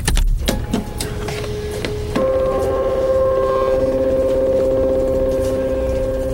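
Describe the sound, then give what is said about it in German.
A printer prints out fingerprint images in a detective game. A few sharp clicks and mechanical knocks come first, then a steady whirring drone with sustained tones runs to the end as the printing continues. “Zwei verschiedene Fingerabdrücke. Am besten ich drucke sie aus.”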